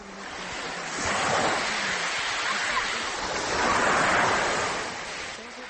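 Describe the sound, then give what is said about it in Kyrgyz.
Large waves on Lake Issyk-Kul churn and crash under a strong wind of 21–22 metres per second. The loud, continuous rushing wash swells twice and fades, with wind buffeting throughout. “Секундасына 21-22 метр ылдамдыкта соккон шамал 17 июнь күнү Ысык Көл суусуна ушундай чоң толкун жаратты.”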